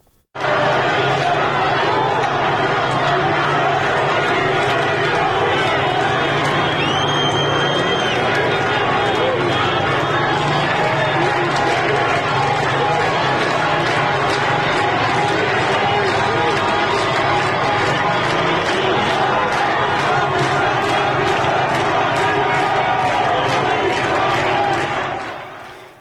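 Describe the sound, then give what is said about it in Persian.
Crowd noise from a street protest in Isfahan: a dense, continuous roar of many voices with shouting, holding loud and steady for the whole clip. “فرصتی هست تا صدای یکی از تظاهرات رو هم در اصفهان بشنویم.”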